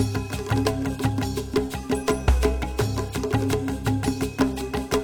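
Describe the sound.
Earlier instrumental music with a steady percussive beat over a deep, repeating bass line, played loud and continuous without any voice.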